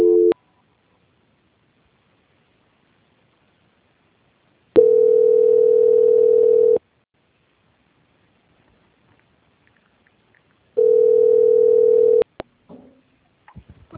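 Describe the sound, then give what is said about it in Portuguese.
Telephone line tone while a call is transferred: long, steady single-pitch tones lasting a couple of seconds each, separated by long silences, with faint clicks near the end. “Eu vou passar a ligação para a editoria, tá? Tá. Só um minutinho. Transferência.”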